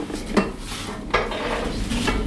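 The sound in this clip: Olive bread dough being taken out of its tub in a bakery, heard as clattering and a few sharp hard knocks over a steady background rush.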